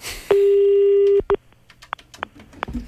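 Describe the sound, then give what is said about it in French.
A telephone call is being placed to Doug Ford. A steady single-pitch tone sounds loudly for about a second and cuts off, then several short clicks and brief beeps follow. “Alors, on appelle Doug Ford à l'instant.”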